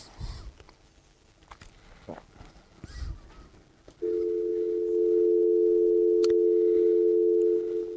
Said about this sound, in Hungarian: És akkor én most hívom őt.